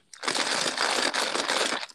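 Someone crunches while eating, a dense, continuous crackling crunch lasting nearly two seconds with small dips in loudness and no talk.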